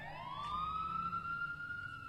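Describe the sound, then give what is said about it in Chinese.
A police car siren wails through the night: one loud, sustained tone sweeps upward and then holds steady, with no voices over it. “警车的鸣笛声划破了夜色的寂静。”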